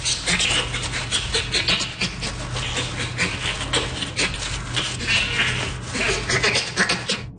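A bonobo pants, voicing rapid, breathy sounds on the in- and out-breath. The rasping pants run densely and continuously at an even loudness, with no clear pauses.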